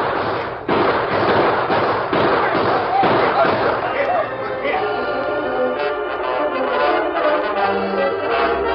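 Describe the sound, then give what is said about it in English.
Gunshots ring out in a western radio drama showdown: several sharp, loud cracks in quick succession over a dense, busy background. “Get out your gun and use it. Oh, let's get out of here. Hey, look behind us. We're trapped. Shoot, you fool. Shoot.”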